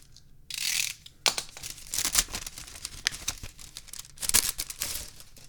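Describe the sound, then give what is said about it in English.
Paper tearing and rustling as a letter opener slits open an envelope: a few scratchy bursts and crinkles of varying loudness, with no talk. “Get out the old letter opener. Open the envelope.”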